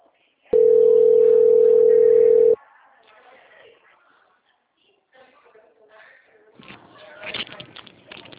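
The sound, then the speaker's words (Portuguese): A loud, steady telephone tone lasts about two seconds while a call is being transferred, followed by quieter sounds and then people talking toward the end. “eu vou transferir para o setor de controle e qualidade do Santander, tá bom? Tudo bem, então. Tá bom. Transferência.”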